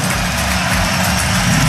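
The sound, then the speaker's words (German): A steady, loud engine drone comes from an airplane at Frankfurt Airport. It is a continuous, even hum with no breaks and no voices. “Was wäre der erste Stopp? Ja, Frankfurt Flughafen. Hast du am Flugzeug erkannt, ne?”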